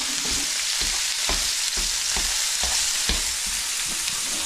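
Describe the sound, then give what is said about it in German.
Minced meat sizzles loudly as it fries in olive oil heated until smoking, a dense, steady hiss broken by soft, regular bumps as it is stirred; no voices are heard. “kurz das Olivenöl auf Temperatur bekommen. So, genau, hört man dann und sieht man auch, wenn es so ein bisschen raucht. Und dann rein mit dem Hackfleisch.”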